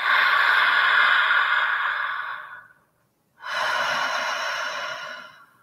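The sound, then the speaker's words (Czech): A deep breath is drawn in through an open mouth, long and airy. After a short silent pause comes a gentle, breathy exhale that fades out softly. “Otevřít ústa a pořádně nadechneme.”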